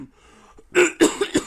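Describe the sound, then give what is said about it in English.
A man clears his throat with a few rough, raspy bursts, the first the loudest, followed by shorter, quieter hacks. “clearing his throat”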